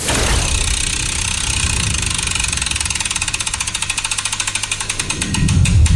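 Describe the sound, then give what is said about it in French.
A game show prize wheel is spun, producing a long run of rapid, even ticking clicks for several seconds. The ticking ends in a louder low swell. “Est-ce que je peux lancer la roue là maintenant pour voir à quoi on va jouer”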